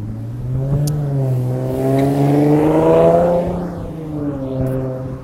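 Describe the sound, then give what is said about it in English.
Revving from a Mercedes car's exhaust, a gruff, droning engine tone that climbs steadily in pitch to a peak around the middle, then drops back and settles into a steady hum, with no voices. “how does a Mercedes have such a terrible sounding exhaust?”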